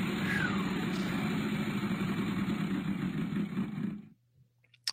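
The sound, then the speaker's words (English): A game show prize wheel spinning, a loud dense rattle of rapid clicks that runs steadily for about four seconds and then stops abruptly, leaving near silence with one faint tick at the end. “Spin the wheel. Let's get some money. He thinks he's got it. We'll spin that wheel.”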